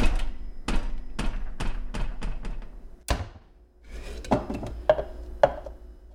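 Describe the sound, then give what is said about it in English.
Kitchen chairs at the table are pushed back in and cabinets opened, giving a quick series of sharp knocks and wooden thunks, then a pause and a few scattered, faint bumps and clicks. “Chairs at the kitchen table being pushed back in. Opening the kitchen cabinets. And a variety of other sounds.”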